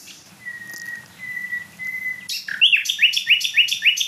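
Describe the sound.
A nightingale sings in late April: a few long, pure whistled notes held at one pitch, then a loud, rapid run of repeated sharp chirps.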